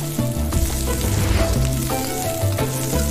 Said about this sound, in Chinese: 再将瘦肉投入热油，急火翻炒间锁住每一分肉汁。